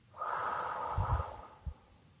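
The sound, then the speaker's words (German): A deep breath taken during a guided meditation: a long, audible, airy inhale lasting over a second, followed by a brief soft puff as the air is let out, alone with no talk. “Atme noch einmal tief ein und wieder aus.”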